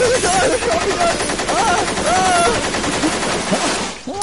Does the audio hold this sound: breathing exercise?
no